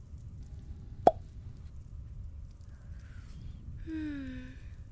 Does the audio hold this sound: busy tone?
no

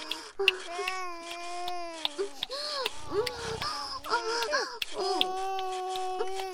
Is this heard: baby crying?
yes

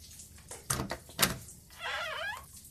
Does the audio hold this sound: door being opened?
yes

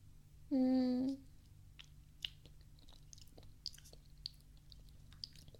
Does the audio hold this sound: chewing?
yes

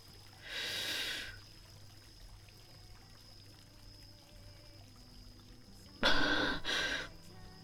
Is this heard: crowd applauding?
no

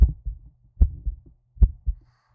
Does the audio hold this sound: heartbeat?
yes

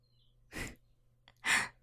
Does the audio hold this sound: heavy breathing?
yes

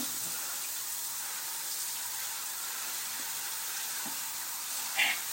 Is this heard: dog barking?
no

